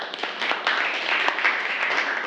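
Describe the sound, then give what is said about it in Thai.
Applause from a classroom audience during a group quiz, a dense, soft, steady patter of clapping with no single claps standing out. “ปรบมือให้กับณัฐสุภาด้วยค่ะ”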